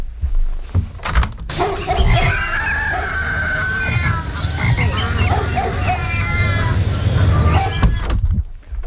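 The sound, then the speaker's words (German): Frogs croak through an open studio window in a loud, dense animal chorus, with a regular high chirping that repeats steadily across the whole stretch. “Furchtbar, welchen Krach die aufdringliche Fauna hier verbreitet.”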